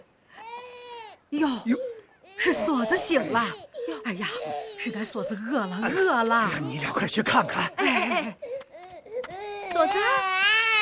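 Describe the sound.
A baby cries in high, wavering wails that come in several bursts with short gaps, while adult voices talk over and between the cries.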